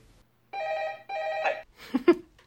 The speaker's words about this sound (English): Whose phone is ringing? Sorry, that's my phone.